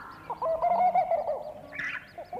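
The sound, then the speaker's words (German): A bird calls in dove-like coos: one sustained, warbling tonal phrase, then a brief higher burst, with no talk. “Jetzt gerade, da ich dies schreibe, fängt dieser Vogel wieder an, der mich zum Wahnsinn treibt. Er ruft.”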